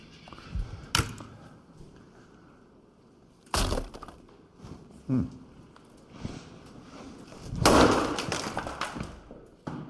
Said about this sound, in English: So what do you guys think of this impact sound effect?